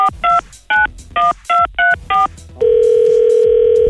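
A telephone number is dialed on a keypad: seven short, evenly spaced two-note beeps sound in quick succession. A loud, steady tone follows immediately and holds to the end, with no voices.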